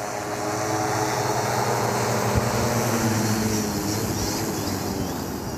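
A survey drone coming in to land gives off a steady, even whirring hum with a faint tonal buzz. The level stays constant throughout, with no talk.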